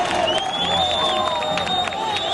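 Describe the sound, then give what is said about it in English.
Applause and crowd noise erupt at a night rescue site in Pereira as rescuers bring a trapped woman out alive from a collapsed building that housed a hair salon. Clapping and cheering stay loud and steady throughout. “Less than 2 hours later, and one block from the first rescue site we visited in Pereira, applause erupts.”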